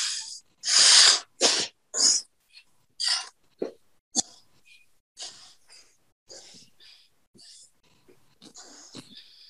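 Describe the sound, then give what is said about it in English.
Alternate nostril breathing with the eyes closed: a series of forceful nasal breaths, loud and hissy at first, then growing softer and shorter, with no talk. “So that's alternate nostril breath with your eyes closed.”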